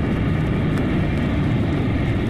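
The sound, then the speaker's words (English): A steady, loud roaring rumble from an invisible robot plane zooming down from the sky and hovering, holding an even level throughout with no clear change in pitch. “an immeasurably powerful invisible plane zooms down from the sky, hovers briefly above her, dropping a rope ladder”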